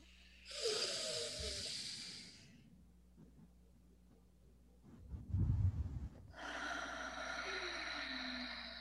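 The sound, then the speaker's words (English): Deep breaths taken during a casual conversation. A long, hissy breath is followed by a quieter stretch and a low, rough burst of noise, then a second long breath. All are fairly faint. “Let's take a breath.”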